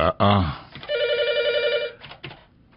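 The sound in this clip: A telephone ring on a call-in line as a listener's call comes through: one steady, bright electronic tone lasting about a second, with a voice speaking briefly before and after it.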